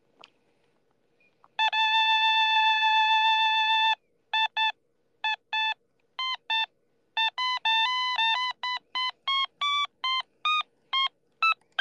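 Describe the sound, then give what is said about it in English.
Electronic alarm-like beeping: one long sustained tone, then a brisk run of many short beeps at shifting pitches. The beeps are loud and clean, with silence between them. “Can you do an alarm?”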